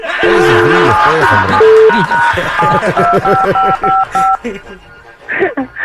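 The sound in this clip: Touch tones from a telephone keypad as a number is dialed: a rapid run of steady electronic beeps at shifting pitches, overlapped by loud laughter and voices, then brief talk after the tones stop.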